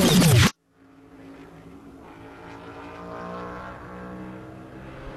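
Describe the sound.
A NASCAR Cup Series race car engine roars during pole qualifying at Richmond Raceway, a short track. A brief loud burst opens, then a short gap, then a steady, sustained engine drone with layered harmonics.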